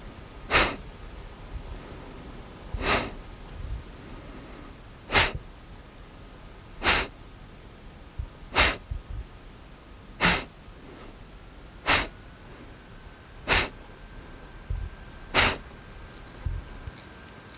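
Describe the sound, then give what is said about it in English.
Kapalabhati breathing: nine sharp, forceful nasal exhales in a steady, even rhythm, each a brief loud hissing puff with quiet passive inhales between. “Exhale swiftly, drawing your navel to your spine.”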